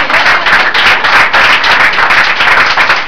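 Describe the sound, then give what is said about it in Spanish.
Church audience clapping: loud, fast, steady hand claps from many people in an even rhythm, continuing without a break. “Ah, aplaudan y métale.”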